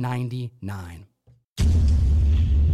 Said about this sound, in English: What happened? I heard an explosion.